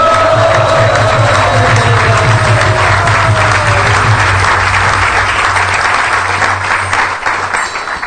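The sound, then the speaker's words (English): Loud applause from an audience congratulating initiates at a ceremony: dense, steady clapping fills the whole stretch at full strength and thins slightly at the very end. “could you allow us, please, to congratulate you with very loud praise. So will you please rise?”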